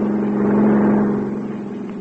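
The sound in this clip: A car driving right past during a chase: a steady engine drone that holds, then eases slightly toward the end.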